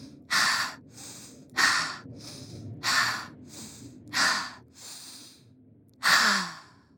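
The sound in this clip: A person takes five deep breaths in a slow, steady rhythm with pauses between. Each is a soft inhale followed by a louder, breathy exhale.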